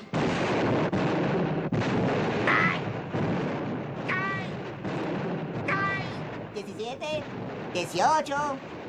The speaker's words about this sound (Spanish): ¡Me daré un saludo de 21 cañonazos por la victoria!